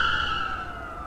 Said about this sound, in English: shouldn't we keep driving? The cops are right on our caboose.